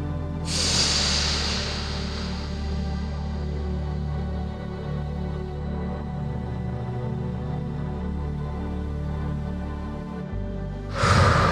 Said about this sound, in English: I'm going to breathe into the mic, and you can breathe with me.